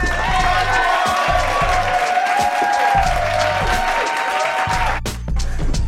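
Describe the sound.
Studio audience applause and cheering at the opening of a comedy talk show: steady clapping with sustained whoops and cheers on top, cutting off abruptly near the end.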